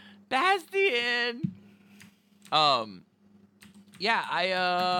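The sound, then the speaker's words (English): Computer keyboard typing: a few light, quick clicks in the gaps between bursts of voices talking. “Why does X-Men gay marriage come up when I type an X?”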